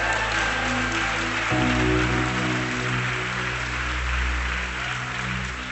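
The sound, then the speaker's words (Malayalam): Steady applause from an audience at a church gathering, a sustained wash of many clapping hands that holds throughout, with soft sustained musical tones beneath. “എല്ലാരും ഒന്നും കൈയടിക്കണ്ട, ദൈവത്തിൽ സന്തോഷിക്കുന്നവർ കൈയടിച്ചാ മതി.”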